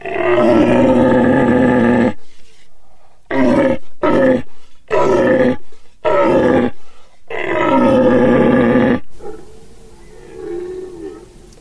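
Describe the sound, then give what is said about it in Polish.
A human voice imitates the threatening roar of a dominant herd stag deer: a long, deep, loud bellow, then a run of short guttural grunting bursts and another drawn-out roar, followed by a fainter, lower roar at the end. “Ja tu pokażę taki głos byka stadnego, straszący.”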